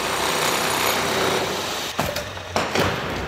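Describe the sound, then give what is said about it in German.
Construction work inside a museum under renovation, heard as a loud, continuous, harsh buzzing power-tool drone. The noise breaks off in two brief dips near the end before resuming. “MDR Thüringen-Reporterin Katrin Welzel hat sich fürs Fazit vom Tag mal auf der Baustelle umgeschaut. Das Lindenau-Museum klingt. Leise in der zweiten Etage und laut im ersten Obergeschoss.”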